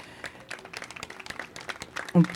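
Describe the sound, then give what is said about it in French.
Applause after a speech about migrants' rights, heard as a scattered, fairly faint patter of many claps that continues unevenly throughout. “En effet, ça mérite d'être applaudi.”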